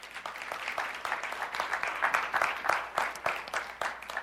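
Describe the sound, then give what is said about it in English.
Applause from a church audience after worship music at a morning service: dense, steady clapping that holds at an even level for the whole stretch, with no voices. “Why don't we give God a hand for the worship music that we just had?”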